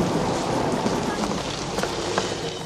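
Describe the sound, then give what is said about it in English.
Pouring rain makes a dense, steady hiss of heavy downpour that runs unbroken through the whole clip, with scattered sharper drops standing out. “stands in the pouring rain.”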